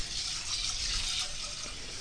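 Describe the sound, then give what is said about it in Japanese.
Water being poured into a cooking pot already seasoned with cooking sake and salt, a steady, even hiss of running liquid that stays constant without breaks. “調味料は料理酒、塩、そしたらお水を注ぎます。調味料はねお酒と塩だけなので、あとはもうお水を注いでしまいます。”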